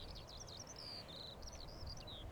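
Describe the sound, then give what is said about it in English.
Skylarks sing over the Farne Islands in a continuous, faint stream of high, rapid warbling trills and chirps above a steady low rumble. “As always, there's the birds, swans, eider ducks known as cuddy ducks, kittiwakes, and skylarks, skylarks, skylarks.”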